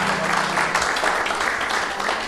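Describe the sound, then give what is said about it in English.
A church audience applauds the worship team, a group of drummers and piano players, as they come down from the front. The clapping is a steady, dense patter at an even level throughout, with some faint voices mixed in. “Why don't we give the team a hand clap as they come down there?”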